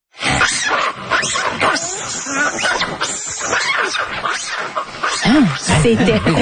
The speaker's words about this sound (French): si vous entendez ce son-là, c'est-tu le macaque? Oui, c'est le macaque.